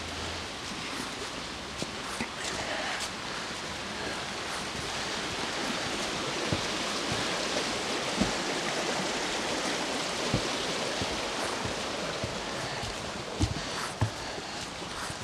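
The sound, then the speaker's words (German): A babbling brook rushes in a steady, even wash of water, with scattered brief clicks and splashes rising out of the constant flow. “Wo die Bächlein noch rauschen.”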